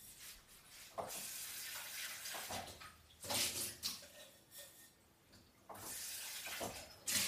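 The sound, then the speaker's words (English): Tap water runs while something is being washed, coming in gushing bursts that start and stop unevenly, splashing and hissing with no voices over it. “Well, let me wash it.”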